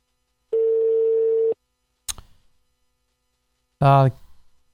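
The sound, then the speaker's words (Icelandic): A telephone rings down a live radio call line: one steady, mid-pitched ringing tone lasting about a second, followed by a sharp click and a brief burst of voice. “Það gaman að heyra símhringingu í beinni útsendingu.”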